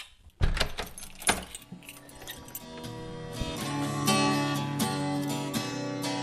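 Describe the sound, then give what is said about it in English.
Keys jangle as an apartment door is locked: a few sharp metallic clinks and rattles at the start, then a steady tonal backdrop that carries on to the end. “Lock up the apartment.”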